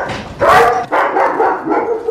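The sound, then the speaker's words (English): German Shepherd dogs barking, with a few loud barks and yelps running close together, a short sharp burst first and then a longer run of barking that rises and falls in strength. “The dogs? Yeah. Yep. German Shepherds, they're beautiful. They really are. They're beautiful dogs.”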